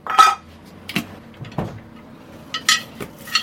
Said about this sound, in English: And we weigh it out on the Avery scales, which has a very unique sound when the sweets hit the pan.